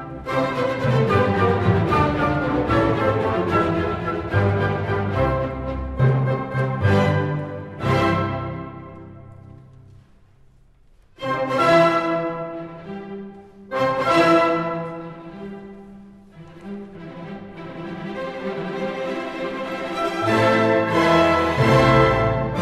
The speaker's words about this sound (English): The last one we have time for is the Symphony No. 9, also known as The Great.